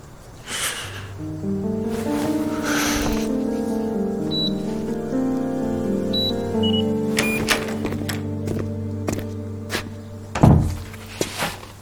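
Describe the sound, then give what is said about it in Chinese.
A fingerprint door lock opens a door with a few short, high electronic beeps over steady background music, then clicks and a louder mechanical thunk near the end. “我要用指纹开门”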